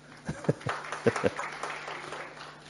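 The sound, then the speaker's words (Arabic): An audience applauding a woman with soft, steady clapping that stays fairly faint, while voices are heard over it. “ما انا عارف، عشان كده سقفوا لها.”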